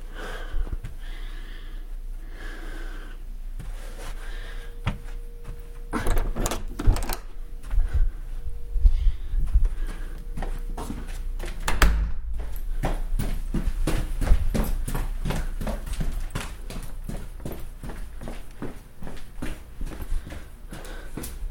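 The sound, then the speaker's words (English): Slow footsteps pick through a cluttered laundry room full of stored junk, many irregular steps and knocks that grow louder and busier after the first few seconds. “There's all kinds of crap in here, so I have to go a lot more slowly when I'm walking through the laundry room.”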